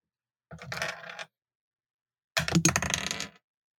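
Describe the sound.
Dice rolling during a tabletop game: two separate bursts of bright clattering and rattling, the second slightly longer and louder, with silence before, between and after.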